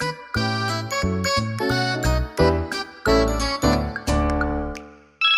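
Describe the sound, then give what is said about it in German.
A bright melodic notification chime announces an incoming message: a loud run of ringing, bell-like tones stepping through a short tune, with the last tone fading out. “Ah ja, da kommt ja schon eine Nachricht von Sophie.”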